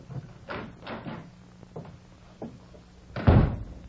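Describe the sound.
A door as someone goes out for a breath of air at night: a few soft thuds and knocks, then one louder closing thump near the end.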